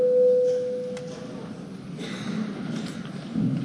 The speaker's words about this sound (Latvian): Lūdzu zvanu.